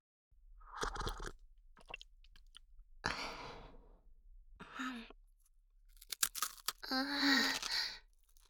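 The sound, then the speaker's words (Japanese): Crunchy rice crackers being chewed: several irregular bursts of crisp crunching separated by brief pauses, fairly quiet and close, with no talk. “今度はお茶菓子まで、 うん、おせんべい美味しいよ。”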